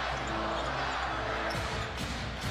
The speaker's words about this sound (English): on the dribble.